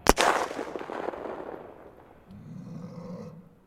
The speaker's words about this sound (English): He aims at the closest one and pulls the trigger. The silence is broken by a loud crack as his rifle goes off and he reloads.